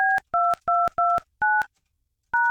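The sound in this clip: Telephone keypad tones beep while a number is dialed: six crisp, steady two-tone beeps, five in a quick even run, then a short pause before the last.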